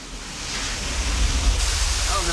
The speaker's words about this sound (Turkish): Gördünüz mü? Su buldum. Bunun için birkaç dakikam ayıracağım çünkü kaynak suyuna benziyor.